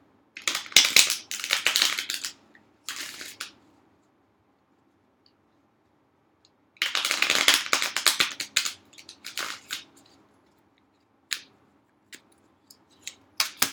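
Rider-Waite tarot cards are shuffled before a card is drawn: two bursts of crisp, rustling riffles separated by a pause, then a few isolated sharp card snaps.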